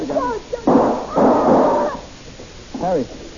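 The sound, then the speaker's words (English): Gunshots in an old radio crime drama: two loud, dull, muffled bursts in quick succession, with brief voice fragments before and after, all in a narrow, dated tone. “If you'd drop that gun, Benson, instead of trying to shoot it, you wouldn't have killed your wife.”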